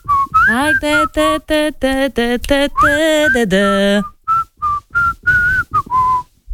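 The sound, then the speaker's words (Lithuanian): A woman whistles a tune alone, clear and loud, with a run of quick, bright notes that bend and glide, then a string of short, separated tones and a few longer held notes. “Gali ką nors pašvilpti?”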